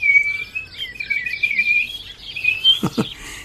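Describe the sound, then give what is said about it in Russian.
A person whistles to call birds into song, a thin, high, birdlike warble with quick trills and slides held fairly steady throughout, with a couple of soft low thumps near the end. “Ты чего это свистишь, Леонтий? Птичек, на пение вызываю. Сейчас ответствовать будут. Слышите?”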